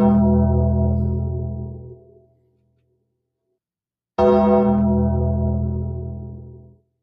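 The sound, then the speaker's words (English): A mourning bell tolls twice for a death. Each deep, rich strike rings loudly and then fades slowly, with a few seconds of silence between the two tolls. “so that may sound familiar. That is the bell you hear when, you know, essentially rest in peace, dark days.”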